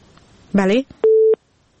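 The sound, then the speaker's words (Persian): A telephone busy tone after a dropped call. A brief voiced sound is followed by one steady, mid-pitched electronic beep lasting about a third of a second, then silence. “متاسفانه تماس آخونزاده صاحب قطع شد.”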